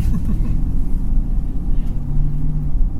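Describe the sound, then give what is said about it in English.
A car drives off on a rough road with a dense, continuous low rumble of engine and road noise. The loudness stays even throughout, with no distinct separate events. “Alright, well, you need to start driving then. Alright, we'll start driving.”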